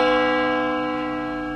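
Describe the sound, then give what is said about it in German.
Tower clock bell striking once, a loud, rich metallic tone full of overtones that hums on and fades slowly without any other sound. “Plötzlich wird die Sense vom ersten Glockenschlag der Turmuhr unterbrochen.”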